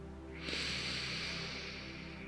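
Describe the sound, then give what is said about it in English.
A deep breath drawn in through the nose during a guided abundance meditation: a soft, steady airy rush that starts sharply and holds for about two seconds, with no voices. “So take a deep breath in through your nose.”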